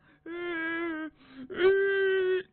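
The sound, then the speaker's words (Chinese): A performer's voice imitates a frightened man crying: two sustained wailing moans with steady pitch, the second louder and longer, separated by a short gap. “这杨栋啊吓得直哭啊，别哭别哭”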